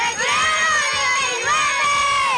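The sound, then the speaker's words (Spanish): Primary school children shout a chant together in unison, a loud, sustained wall of high young voices that dips briefly partway through and then surges again. “Y estamos con los Kids 99 que nos van a gritar Recreo 99.”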